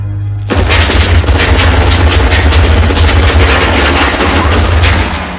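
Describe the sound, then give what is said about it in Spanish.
A burst of automatic gunfire in the 1988 action film Die Hard, with a gunman spraying bullets along a ventilation duct. A very loud, dense rattle starts abruptly and continues unbroken for about five seconds. “Dispara una ráfaga recorriendo todo el conducto.”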